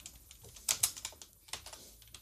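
Fingers type on a computer keyboard, producing many faint, irregular key clicks with a few sharper taps in the middle.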